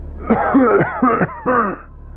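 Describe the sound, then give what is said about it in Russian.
A few hoarse, throaty coughs come from behind a door, short rough bursts in quick succession with a throat-clearing quality, fairly loud against a quiet background. “Наконец, из-за двери раздался кашель, и сиплый голос спросил:”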